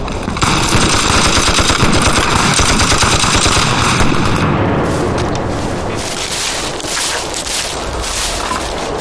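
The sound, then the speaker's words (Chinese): Many guns fire together in a wartime battle, a dense, continuous fusillade of overlapping rapid bursts and booms that stays loud and unbroken for the full nine seconds. “你们所有人给我开枪，把声音压过去。”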